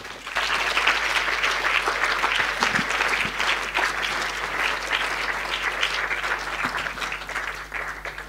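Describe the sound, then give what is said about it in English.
An audience applauds to welcome a filmmaker at a film screening event. The clapping is dense and sustained for about eight seconds at an even level, with a faint low hum underneath. “please put your hands together to welcome Payal Kapadia.”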